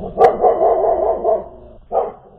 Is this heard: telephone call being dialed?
no